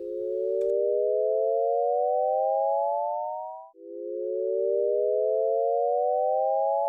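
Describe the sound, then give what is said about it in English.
Synthesized chord of pure sine tones fades in and glides smoothly upward toward the same chord an octave higher, then fades out. A second identical rising glide fades in right after and repeats the sweep. “So this is a group of notes making a chord starting in one octave with a glissando to the same chord in another octave.”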